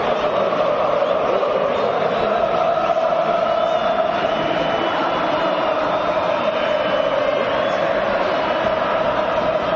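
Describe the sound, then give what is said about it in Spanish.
A stadium crowd roars at a World Cup match in New York, a dense, steady wall of noise that holds at an even level for the whole stretch, with no breaks or single voices standing out. “Ruge, escuchen. ruge el estadio de Nueva York.”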